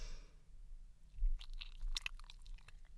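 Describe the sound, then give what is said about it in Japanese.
Leftover lotion on hands makes soft, wet, squishing and slick rubbing sounds in a close ASMR recording. Quiet at first, they become a few louder moist squelches partway through. “今ね、さっきのローションの残りが、”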